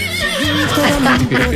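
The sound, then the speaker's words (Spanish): Person imitating a horse neighing, a quavering, wavering whinny that shakes up and down in pitch, delivered loudly over a steady noisy background. “Me llaman el caballo relinchador.”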